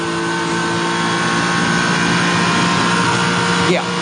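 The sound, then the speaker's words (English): Race car engine drones loudly and steadily at the end of Conrod Straight as the driver lifts slightly off wide-open throttle, with a brief dip in pitch near the end. “he's got down to the end of the straight and he's removed some throttle opening then just to conserve that last piece of wide open throttle at the end of Conrod Straight”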